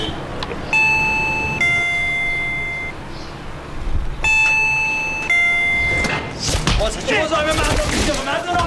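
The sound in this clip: A two-tone doorbell chime rings twice in a ding-dong pattern, each time bright and sustained, followed by people talking.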